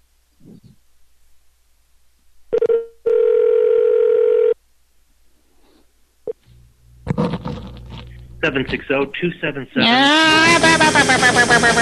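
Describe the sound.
Telephone dial tone on a phone call: a short beep, then a steady humming tone of about one and a half seconds, followed by a quiet gap and then louder, mixed, shifting sounds.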